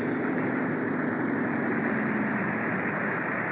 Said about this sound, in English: I'd better go and cut the engines.